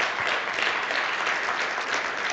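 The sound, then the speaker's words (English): Audience applause, a continuous, even patter of many hands clapping at a fairly soft, steady level with no voices over it. “I think we ought to give God a round of applause today for what He has done.”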